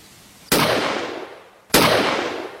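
Two loud pistol gunshots, about a second and a quarter apart. Each sharp crack is followed by a long, fading ring, with nothing else heard.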